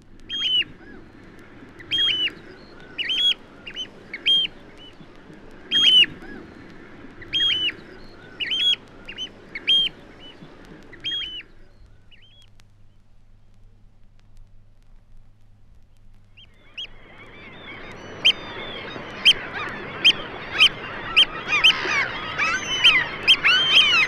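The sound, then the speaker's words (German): Oystercatcher calls, from a large black-and-white shorebird of beaches and salt marshes on the Baltic coast. A pair gives several series of shrill, piping flight calls. After a quiet pause come rapid, insistent alarm calls over the dense, noisy chatter of a common gull colony. “Austernfischer, einem großen, schwarz-weiß gezeichneten Strand- und Salzwiesenbewohner. Auf die Flugrufe eines Paares folgen Warnrufe inmitten einer Sturmmöwenkolonie.”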